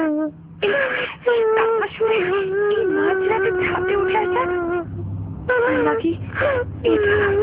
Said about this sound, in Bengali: তার কান্না মাঝখানে কেন এলাম, কি দরকার ছিল?